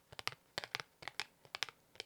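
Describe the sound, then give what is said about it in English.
Playing cards are dealt and handled softly, giving crisp, papery flicks and scrapes in several quick clusters separated by short pauses, all faint and close with no talk. “Okay. Deal me a card. Ready? Deal me a card.”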